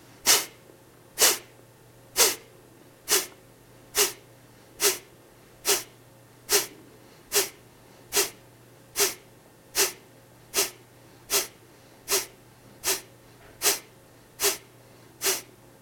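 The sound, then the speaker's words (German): Forceful, rapid exhalations through the nose in a breathing exercise, each a sharp snort-like puff, repeat many times in an even rhythm of roughly one per second, with quiet gaps between them and no talking. “dass du schnell ausatmest und sanft einatmest, so als ob du einen Papierschnipsel wegpusten willst, und zwar durch die Nase. Atme jetzt aus, atme ein und beginne.”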